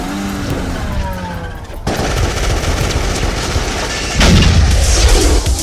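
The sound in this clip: Loud, dense gunfire from a war film trailer, with rapid machine-gun bursts and individual shots running continuously. The firing grows heavier toward the end.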